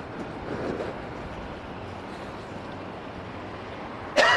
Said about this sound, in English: It's a little breezy out here. Just a little bit, eh?